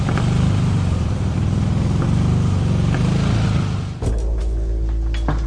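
A car engine runs with a loud, rough, steady drone, dips briefly, then settles into a smoother, lower hum.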